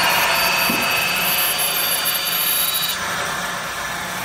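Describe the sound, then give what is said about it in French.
An artisan decorates a piece of glass with a grinding wheel. A continuous, high, hissing whine of abrasion holds steady for about four seconds and eases slightly toward the end. “Ce que vous venez d'entendre, c'est le son d'un artisan en train de décorer une pièce de verre avec une meule.”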